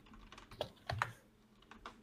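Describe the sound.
Faint computer keyboard typing, a few soft keystroke clicks spread unevenly across a short moment.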